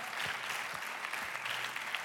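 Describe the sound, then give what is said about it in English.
An audience claps during a church sermon after a scripture reading. The applause is faint and steady, with a few soft low thumps under the continuous patter of hands. “Can we just applaud the word of God?”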